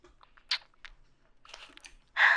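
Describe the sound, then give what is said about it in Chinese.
Someone eats a lollipop candy: faint, scattered clicks and crunches, then a louder crunch at the end. “在干嘛？吃糖呀。”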